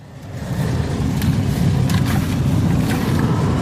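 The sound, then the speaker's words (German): Low, steady engine rumble of sugar beet harvesting machines driving over fields in Lauenburg, Schleswig-Holstein, swelling over the first half second and then holding a dense, continuous drone. “Die Rodungsmaschinen fahren im Kreisherzogtum Lauenburg auf etwa 1000 Hektar Anbaufläche über die Felder.”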